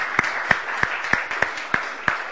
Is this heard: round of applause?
yes